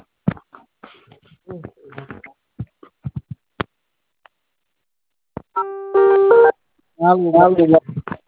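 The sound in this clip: A telephone keypad tone from pressing zero rings out for about a second after a recorded voice prompt on a phone line, followed by another brief tonal burst.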